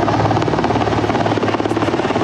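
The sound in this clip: A military air force helicopter on a mountain rescue flight: a loud, continuous whirring drone with a steady, rapid rotor pulse that holds level throughout.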